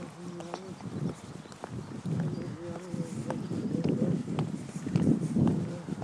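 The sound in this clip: Footsteps of people walking outdoors beside a river at twilight, irregular soft steps under scattered bird chirps and faint voices.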